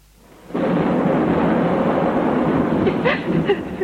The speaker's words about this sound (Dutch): Heus, lieverd. Dat onweer gaat toch weer voorbij?